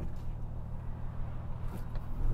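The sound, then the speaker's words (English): Steady low engine rumble from a BMW M car with a 3.5 litre straight-six, a dense, even drone that swells slightly toward the end. “I'd say apart from the engine, that 3.5 litre straight six, it's totally... It sounds great though.”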